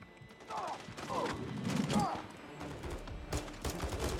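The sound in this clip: Gunfire in the snowy campaign of the video game Call of Duty: Modern Warfare 3: a few sharp, scattered shots and bursts with mechanical clatter in between, loud and uneven.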